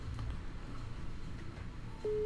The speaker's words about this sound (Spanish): está llamando ya. Ah, espérate, que nos llaman. Está llamando. A ver si lo coge.